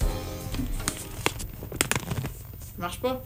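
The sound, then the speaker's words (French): A small plastic bag holding chocolate is torn open, giving a few sharp crinkling crackles over a broad rustle. Voices speak at the end. “Donc, je baisse la trame et on écoute notre beau petit sac s'ouvrir.”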